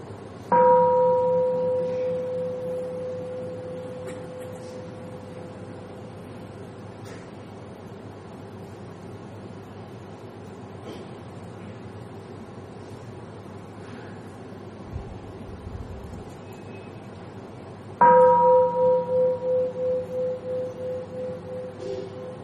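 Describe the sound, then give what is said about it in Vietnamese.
A mindfulness bell is struck twice during a Buddhist dharma talk. Each strike gives a clear ringing tone with a slowly pulsing decay, and the two are separated by a long, near-silent gap. “Đó là chúng ta thực tập tiếng chuông chánh niệm.”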